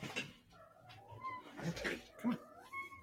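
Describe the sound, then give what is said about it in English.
A cat meows loudly, a few drawn-out, wavering cries rising and falling in pitch, separated by brief pauses. “Meow. So loud.”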